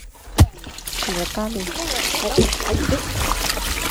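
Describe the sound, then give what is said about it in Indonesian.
Water poured over sago fibres to wash out the starch: one sharp splash early on, then steady trickling and sloshing beneath continuous talking. “Serat-serat yang mengandung tepung sagu ini disiram air.”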